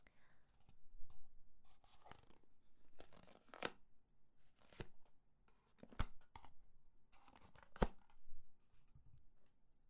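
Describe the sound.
Paper or plastic rasps in several short, sharp tearing bursts as a package is torn open. The sounds are faint and irregular, with soft voices murmuring between them.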